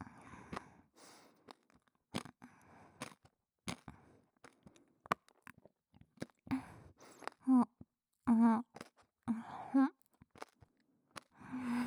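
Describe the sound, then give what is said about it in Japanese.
Someone chews a large mouthful of food: many quiet, irregular crunchy and wet smacking bursts separated by short silences, growing denser and louder toward the end. “食べちゃおうか。せっかくだし、いっぱい口に入れちゃうね。”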